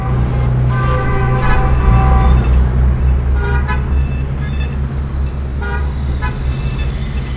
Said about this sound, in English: Lao Wong gets on his bicycle and rides out of his beloved hutong into the wall of sound known as modern Beijing